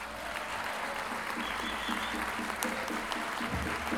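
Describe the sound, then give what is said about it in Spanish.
Audience applause at a payador gathering in Lo Barnechea, greeting a folk singer, poet and improviser: dense, steady clapping from a crowd, continuous and fairly even in loudness throughout. “Recibamos con un gran aplauso a don Jorge Yáñez.”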